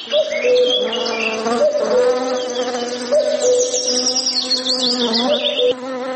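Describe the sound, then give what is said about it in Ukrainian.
Bees buzzing around a hive: a dense, continuous drone of many overlapping wavering hums, loud and steady from start to finish, with no voices. “Давайте додамо до нашої розмови бджіл, послухаємо їх.”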